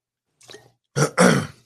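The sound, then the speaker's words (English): A person coughing and choking on a piece of oatmeal from a shake: a faint, gurgling throat sound first, then two harsh, loud coughing bursts in quick succession. “I was just drinking my my shake with some oatmeal in it, and a piece of oatmeal just got like stuck in my throat.”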